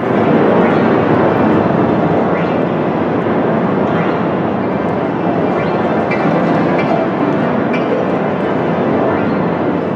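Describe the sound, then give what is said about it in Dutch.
Fifty pianos playing at once form a thick, dense, unbroken roar that stays loud and steady throughout, like a constant wash of sound with no separate notes. “Oké, en dan heb je 50 piano's zelfs. Nu, ik heb online een ultrakort fragmentje gevonden van hoe dat klinkt”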